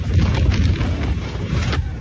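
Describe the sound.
A Goliath roller coaster ride gives off a continuous loud, deep rumble blended with rushing wind noise, steady throughout with no distinct separate events.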